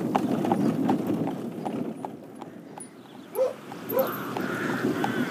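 Horse hooves clip-clop at a steady, brisk pace over a low continuous rumble, with a couple of brief higher tonal sounds partway through.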